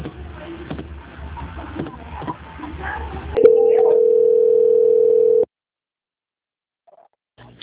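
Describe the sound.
A telephone line tone sounds as a bank call is being transferred: muffled, indistinct talk on the line gives way to a loud, steady single-pitch tone lasting about two seconds, which cuts off into near silence.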